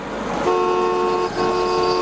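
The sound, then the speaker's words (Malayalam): Car horn honking as a car comes through: two long, loud, steady horn blasts, the second following right after a brief break, over a low rumble. “ഒരു car വരുന്നുണ്ട്, അത് കടന്നു പോയിക്കോട്ടെ.”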